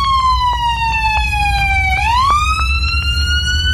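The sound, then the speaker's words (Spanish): A siren wails from an ambulance involved in a crash, loud over a low rumble, its pitch gliding slowly downward before sweeping back up. “Sí, las sirenas de la ambulancia que chocó, definitivamente, el video dura como un minuto y medio.”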